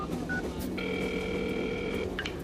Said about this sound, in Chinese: 那你还不赶紧打电话呀。